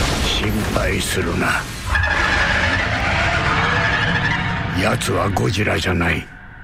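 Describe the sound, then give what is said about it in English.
Shrieking screech of Rodan, the giant flying monster from a Godzilla film trailer, with wavering harmonic cries over a dense, loud rumble that runs almost the whole way before cutting off near the end. “But that sound effect, that sounds to me like Rodan. That's the big flying one.”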